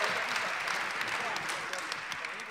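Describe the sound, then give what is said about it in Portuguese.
An audience applauds at a live comedy stage show, a steady, fairly quiet wash of many clapping hands lasting throughout, with a voice speaking over it. “Uma salva de palmas para eles, por favor.”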